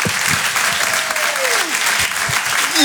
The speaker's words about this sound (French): Faites un maximum de bruit et encouragez, s'il vous plaît, PV sur Rire et Chanson.